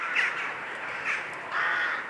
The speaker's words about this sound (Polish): Gawron sam się nam przedstawia, co słyszymy zresztą ciągle w tle.